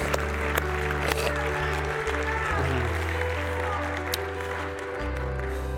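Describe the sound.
Church audience applauding and cheering, a dense, steady wash of clapping that runs for the whole stretch, with voices mixed into the noise.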